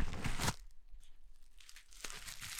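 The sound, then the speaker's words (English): Package being torn open during a live unboxing: a loud, harsh tearing burst opens, followed by quieter crinkling and rustling, then a second tearing rip near the end. No voices. “I'm going to open it live. This is a live unboxing.”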